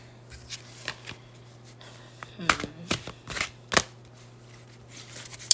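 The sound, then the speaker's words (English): Tarot cards being shuffled and pulled, with crisp riffling, light rustles and a few sharp card snaps, accompanied by a steady low hum and a person talking. “The next card I'm gonna pull is going to be for, let's see.”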